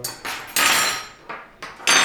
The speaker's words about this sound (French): Là, je mets une cuillère, hein, je sais pas pourquoi.